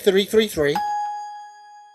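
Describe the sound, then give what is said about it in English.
A single bell rings out during an auction-style draft, marking a pick. A voice speaks just before, then one clear, bright ding with a sustained metallic tone that slowly fades. “Bell, can we get a bell? Oh, sorry, yeah. If you don't mind. There we go.”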